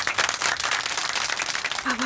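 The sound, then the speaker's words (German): An audience gives hearty applause for a character called Otto. The crowd's clapping is thick and continuous, with loud bursts rising and falling across the stretch. “Bitte einen dicken Applaus für Otto.”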